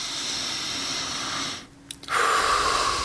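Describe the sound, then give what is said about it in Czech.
Deep breaths taken through the nose: a long, steady, airy rush of breathing, a brief quiet pause, then another breath, with no voices. “Jako, jenom si zkuste se hluboce nadechnout, třeba třikrát, když uděláte nosem.”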